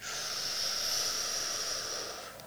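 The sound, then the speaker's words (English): A slow breath drawn over three beats, heard as one steady, airy hiss held for about two seconds and then tapering off at the end, with no talking. “If I take a breath over three beats, so I'll make a noise so you hear.”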